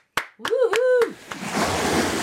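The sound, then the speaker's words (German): Audience applause at a live talk breaks out right after a short spoken voice, swelling into a steady wash of dense clapping through the second half. “Dafür nochmal ein extra Danke. Applaus.”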